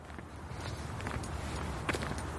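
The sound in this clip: Footsteps walk outdoors on the way to a final stop beside a tower. A quiet run of irregular steps sounds over a faint, steady background with no talk.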